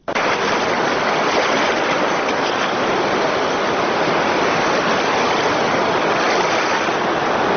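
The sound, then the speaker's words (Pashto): Flooded Kunar river water rushes in a steady, loud, dense roar that stays even throughout, with no voices. “د کونړ سیند بیا چپان شو.”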